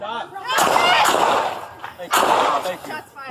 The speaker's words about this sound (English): Shot fired.